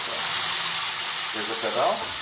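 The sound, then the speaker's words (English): Steady hissing rush from a seltzer filling machine at a small family-run soda works outside Budapest, where carbon dioxide is piped into a metal chamber and mixed with tap water. The broad hiss runs continuously over a low hum, swelling slightly near the end. “A hose sends carbon dioxide into a metal chamber. There it mixes with tap water. And then it will fill. And now we are ready.”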